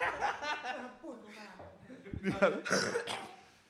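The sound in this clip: Coughing breaks through ongoing talk as a few sharp, noisy bursts in the second half, with conversation continuing around them at moderate loudness.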